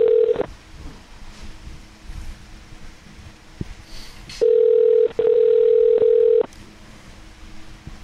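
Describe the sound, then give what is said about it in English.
Telephone ringing tones while a call is placed: a short tone blip at the start, then two long, steady tones back to back with a brief gap between them, over low background noise. “All right, we're dialing. Here we go”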